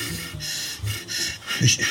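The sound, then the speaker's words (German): Deep breaths from a dental patient drawing in sedative gas at the dentist's: a few slow, airy inhalations and exhalations that swell and fade in turn, soft and breathy, with no voices. “Nicht reden, tief einatmen.”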